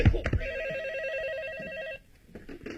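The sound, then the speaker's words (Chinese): A telephone rings with one sustained warbling electronic trill lasting about a second and a half, after a brief thump at the start; faint scattered noises continue once the ringing stops. “你的电话。”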